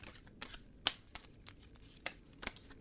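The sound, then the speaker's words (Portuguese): A deck of oracle cards is shuffled with quiet, crisp snaps, several brief clicks spaced irregularly, one slightly louder than the rest. “Vamos embaralhar as cartas, né? Pra gente rir um pouco.”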